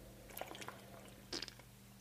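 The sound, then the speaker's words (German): A drink being sipped during a pause in conversation: faint, wet slurping and gulping sounds, a few soft ones early on and then a brief, slightly louder burst, with no talking. “Ich muss mal kurz einen Schluck trinken, warte.”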